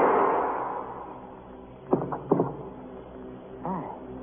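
Gunshots during a detective shootout: a few short, sharp cracks close together follow a fading rumble, then a softer tonal sound trails off near the end.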